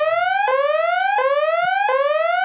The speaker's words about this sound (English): That's the spoiler alert alarm for any new listeners out there.